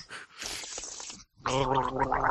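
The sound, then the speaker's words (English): Throaty gargling. A sputtering wet burst is followed by a short silence, then a voiced, bubbling gargle that churns steadily and loudly to the end. “Oh, wonderful. We love gargling sounds.”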